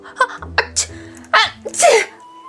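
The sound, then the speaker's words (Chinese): A few short catching breaths lead into two loud, voiced sneezes, the second longer and more drawn out, with a faint steady tone after them. “连打了两个喷嚏，揉鼻子”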